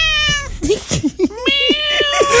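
A cat meowing several times in quick succession, loud, high and whiny, with some short chirping cries and a drawn-out, wavering meow at the start and end.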